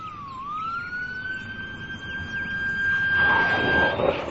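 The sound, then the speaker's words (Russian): An ambulance siren sounds as a single sustained, high wailing tone. It dips and rises briefly at the start, then holds steady and loud, while a rushing noise swells beneath it toward the end. “Слышите? Это приехала скорая помощь.”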